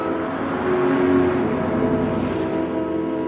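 Steady car engine rumble from two vehicles driving around a fountain in front of a building, one car following the other; a continuous low drone that swells slightly early on, with no voices.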